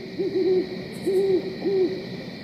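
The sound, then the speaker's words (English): An owl hooting in the daytime at a small cove gives a few low, mellow hoots in short clustered phrases over a steady background hiss. “And he said as they paddled in, the owl got very, very, very loud.”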